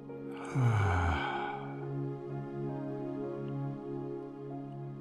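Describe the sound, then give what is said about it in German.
A breath through the nose during a guided belly-breathing exercise: one clear, airy breath near the start, then quiet sustained background tones. “Durch die Nase einatmen in den Bauch. Und ausatmen.”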